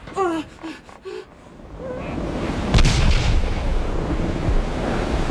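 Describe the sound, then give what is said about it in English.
A warship opens cannon fire: a heavy boom bursts out of rumbling, surf-like noise and trails into a long, low roar. “The Vaxheim Hyde has opened fire.”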